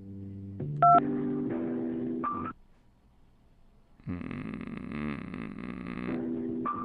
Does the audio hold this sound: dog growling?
no